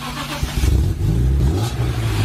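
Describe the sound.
A car engine revs hard in a few surges, its low rumbling note climbing and dropping in pitch, loud and continuous with no voices over it.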